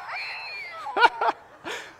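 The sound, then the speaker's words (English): A novelty toy cat in a burlap sack, set off by pressing its button, gives a wavering tonal cry and then a few short, sharp bursts. “It's a cat in a burlap sack, and you press the button.”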